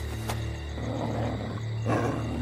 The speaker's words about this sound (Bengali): মাংসের তাল উঠোনে এসে পড়তেই কুকুরটা চাপা গর্জন করে দৌড়ে এসে থমকে দাঁড়িয়ে পড়ে মাংসটাকে শুঁকতে শুরু করল।